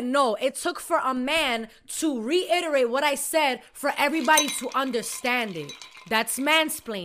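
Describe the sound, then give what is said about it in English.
A spoon clinks against a cup as tea is made, light metallic taps sitting faintly beneath continuous talking. “In case you're wondering what that noise is in the background, that's tea.”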